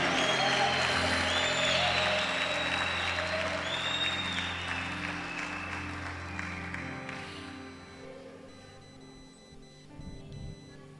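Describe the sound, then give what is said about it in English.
An audience claps hands in dense, steady applause that gradually thins and fades out after about seven seconds, leaving near quiet with a faint low hum. “Clap your hands for Jacqueline.”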